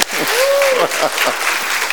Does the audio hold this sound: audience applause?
yes